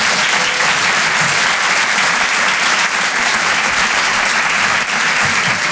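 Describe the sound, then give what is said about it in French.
Loud, steady applause from a comedy club audience as a stand-up comedian is introduced and takes the stage at a live show. The clapping is dense and continuous for the whole clip, with no voices above it. “Faites du bruit pour Harold Barbet.”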